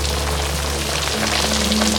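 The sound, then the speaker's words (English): Steady rain falls in a continuous, even hiss that stays loud and unbroken throughout, with a low hum running underneath and no voices. “Standing in the rain, Merton stares up at him.”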